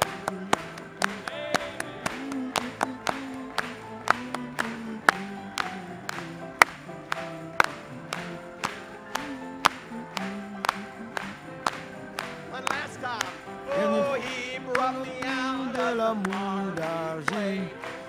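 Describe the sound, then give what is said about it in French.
A worship audience claps hands in praise, a steady, even beat of sharp claps throughout, with sustained melodic sound running underneath. “Continuons à acclamer les mains pour lui une fois de plus.”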